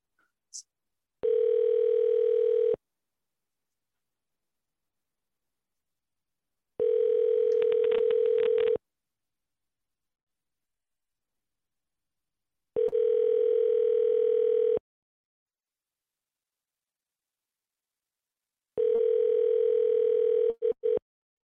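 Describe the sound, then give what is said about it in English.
Telephone ringback while calling someone: four long, steady electronic tone bursts at an even pitch, each about two seconds, separated by roughly four-second gaps of silence, with no voices and a faint click at the start. “Well, I try to get hold of Patrick.”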